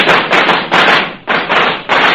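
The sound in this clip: Firecrackers popping in four dense crackling volleys, each starting abruptly, loud and bright, and fading over under a second before the next string goes off, with no voices.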